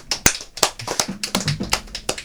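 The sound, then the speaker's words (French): An audience applauds after a musical performance, with many sharp hand claps in a loose, uneven rhythm, fairly sparse and brief. “on peut applaudir”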